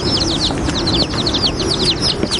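A chick cheeps, held as bait inside a cabin. Many quick, high, downward-sweeping peeps come in a steady series over a low rumbling background.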